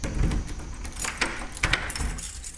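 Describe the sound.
Keys jangle as a school caretaker unlocks the door to the school hall, giving a run of bright metallic clinks and rattles with a few sharper knocks in between. No voices are heard.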